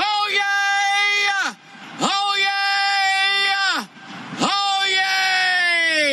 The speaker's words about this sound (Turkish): Çığlığı tam 122,4 desibele kadar çıkıyor.